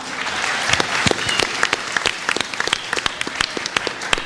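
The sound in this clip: Audience applause, dense and steady clapping from many hands with sharp individual claps popping out, lasting the whole stretch at a fairly loud level.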